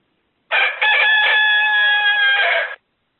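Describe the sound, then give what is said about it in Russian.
A rooster crows in a henhouse: one loud, sustained cock-a-doodle-doo of about two seconds, starting abruptly and cutting off cleanly against silence. “О, видишь, у тебя там курятник целый. Да, да, да, да. Что-то петух-то рано поет, он обычно 12 поет.”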